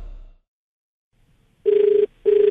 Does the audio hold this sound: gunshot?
no

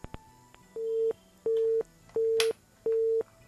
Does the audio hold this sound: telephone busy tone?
yes

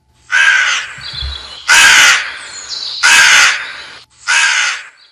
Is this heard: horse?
no

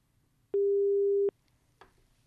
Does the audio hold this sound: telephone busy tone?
yes

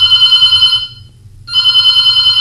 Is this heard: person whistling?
no

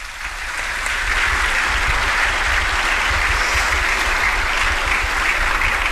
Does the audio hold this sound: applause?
yes

